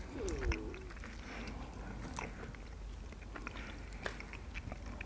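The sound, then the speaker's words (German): Soft chewing of milk chocolate with hazelnut pieces, with a few sharp crunches and steady quiet mastication throughout. “Es schmeckt, weiß ich nicht, also wie Schokolade halt. Ja, aber meins war sehr lecker und man spürt auch die Hazelnut-Stückchen.”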